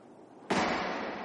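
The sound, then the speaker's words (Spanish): Flares fired over a military camp: one sharp burst breaks the low background, then a loud hissing rush sustains and slowly eases. “De pronto, los bengalas iluminan el cielo sobre ellos. Los chinos lanzan unos fogonazos sobre el campamento”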